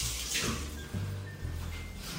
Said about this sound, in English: I'm gonna wash my hands.